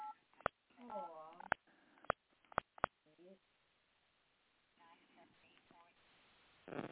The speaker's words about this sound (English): Let me see if I can dial the engineer up.